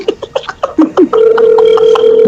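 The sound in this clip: An outgoing telephone call rings through with a loud, steady, unbroken tone lasting about a second, after several short bursts of voice or laughter.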